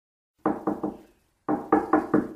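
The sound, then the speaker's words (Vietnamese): Knocking on a room door: three quick, firm knocks, a short pause, then another short series of sharp raps, with nothing else around them. “Khi cô sửa soạn xong thì có tiếng gõ cửa phòng.”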